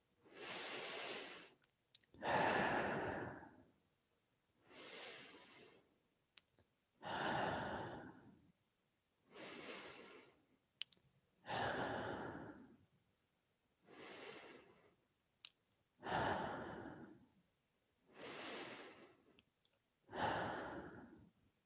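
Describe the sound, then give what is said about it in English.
Five slow, deep breaths, in through the nose and out through the mouth, form a quiet, steady cycle of soft airy rushes separated by short pauses, with no talk. “take five deep breaths with me in through your nose and out through your mouth”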